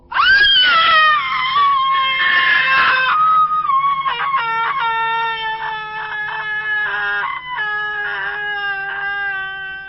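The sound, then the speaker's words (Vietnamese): A young girl's shrill, terrified scream, sustained for about ten seconds as one long, loud, high-pitched wail that wavers and breaks in pitch, with no talk. “Tôi bị tiếng hét thất thanh của cô bé làm cho giật cả mình”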